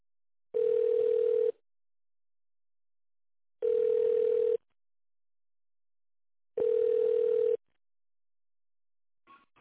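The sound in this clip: Telephone ringback tone heard while placing a call: three steady, evenly spaced tones, each about a second long, separated by silent gaps of roughly two seconds.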